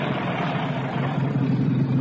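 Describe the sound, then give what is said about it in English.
A car engine drones steadily as the car pulls to the side of a rough road to let a column of lorries pass, giving a constant, fairly loud low rumble with no voices. “I shall pull over here into the side and let some of the lorries pass first.”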